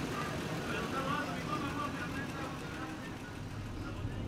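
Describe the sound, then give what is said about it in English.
A car drives west along a border wall, giving a steady, low rumble of engine and tyres on the road that continues under a speaking voice. “We drive west along the wall until we see a sign for an RV park called Twin Buttes.”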